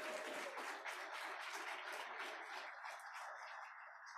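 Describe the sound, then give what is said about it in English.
Faint lecture-hall applause, a dense, even patter of many clapping hands that eases slightly toward the end. “Let's give a round of applause to past distinguished faculty lecturers who are in the audience today.”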